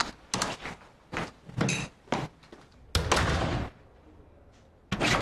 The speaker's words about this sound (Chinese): 帮我从外边把门关上。